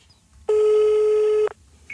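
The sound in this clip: A telephone ringing tone on an outgoing call: one steady, loud, electronic tone lasting about a second, then it cuts off abruptly.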